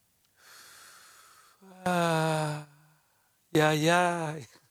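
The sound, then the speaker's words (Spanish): Deep breathing on command: a long, airy inhale, then two loud, voiced, sighing breaths out, each held for nearly a second. “Respira profundo, no te escucho. Otra vez.”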